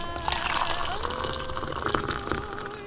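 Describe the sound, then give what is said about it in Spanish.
An espresso shot pours into a cup, a steady thin stream of liquid trickling continuously with faint splashing throughout. “Ahora vierte en la taza.”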